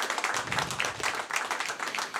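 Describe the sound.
Audience applause for workshop musicians: many hands clap in a busy, overlapping patter, bright and continuous with small surges, and no voices heard above it.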